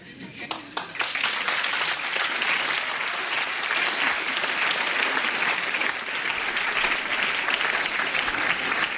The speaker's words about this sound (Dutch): Applaus op alle banken voor Allen Ginsberg, Peter Orlovsky, Steven Taylor en hun America.